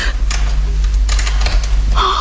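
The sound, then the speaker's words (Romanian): A key is inserted into a door lock with a few light, dry metallic clicks and scrapes over a steady low hum. “Oh, a introdus o cheie în broască.”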